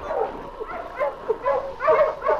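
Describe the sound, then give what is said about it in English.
A dog whimpering low in its throat, a string of soft, moaning whines that waver up and down at moderate volume, with no people talking. “King only whimpered deep in his throat.”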